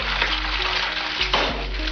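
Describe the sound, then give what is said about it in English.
Steady, loud sizzle of an egg frying in a pan: a continuous crackling hiss with fine spitting texture and no voices. “The message was, doing drugs will fry your brain, just like that sizzling egg in the pan.”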